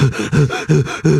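Short, sharp breaths taken by a person trying to wake up: about four quick, forceful bursts in a rapid, even rhythm, loud and breathy with no speech.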